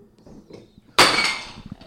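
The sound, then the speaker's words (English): A bowl shatters after being pulled off a kitchen counter. One sudden loud crash lands near the middle, and bright scattering fragments fade over the next second. Before it there are only faint, low household sounds. “Okay, so the bowl just shattered.”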